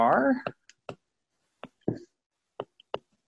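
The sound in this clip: Writing on a board during a maths lecture makes several sharp taps and clicks in uneven clusters after a short burst of a man's voice, with silence between the strokes.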